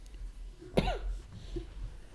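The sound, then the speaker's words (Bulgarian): A person gives a single short, sharp throat cough against a quiet low hum, with no talk around it. “извинявай, ще се изкашля”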